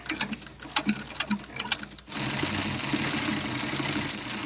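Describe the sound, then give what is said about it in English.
An industrial-strength sewing machine stitching leather in a homemade contraption: rapid, uneven mechanical ticking and clattering at first, then a sudden shift to a steady, continuous whirring hum of fast stitching. “Two of his sew cycles were made with industrial strength sewing machines capable of sewing leather.”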